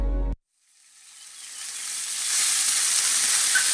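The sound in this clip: Meat sizzling on a barbecue grill: after a sound cuts off into a brief silence, a bright, crackling sizzle swells steadily in loudness for about two seconds, then holds as a dense, even hiss.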